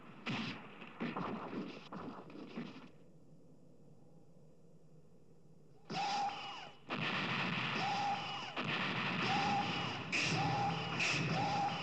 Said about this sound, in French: Son Goku se fait repousser par des dizaines de boules de feu.